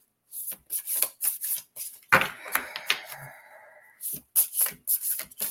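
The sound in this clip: A card is pulled from a deck: a few crisp taps and clicks, then a longer scraping, papery rustle, and then a few more light taps.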